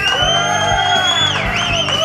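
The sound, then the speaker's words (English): A crowd cheers at the start of a sports talk show, with loud whoops, yells and rising and falling shouts layered into a continuous, energetic roar. “Good cheering.”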